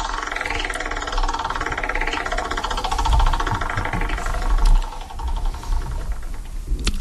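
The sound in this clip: A prize wheel spins for a book giveaway, giving off a fast, continuous ticking rattle that carries through the whole clip at an even loudness.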